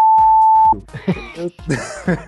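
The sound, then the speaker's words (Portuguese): A single steady, mid-pitched censor beep sounds for under a second, bleeping out a word, and is followed by people talking. “Presta atenção no bip.”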